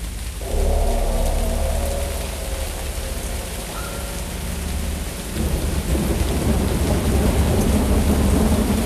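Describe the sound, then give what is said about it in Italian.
Rain recorded live in north Wales, a dense, continuous hiss over a deep low rumble that turns heavier and louder in the second half. “questo rumore di pioggia, probabilmente appunto registrato dal vivo nel nord del Galles”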